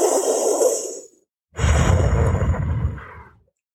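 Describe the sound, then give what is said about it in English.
Slow breaths through a tongue rolled like a taco: a soft, hissing draw of air, a brief silence, then a longer, fuller and louder airy breath that fades out. “Take a slow breath in for four and out for four. Focus on the air coming in and out through your taco rolled tongue.”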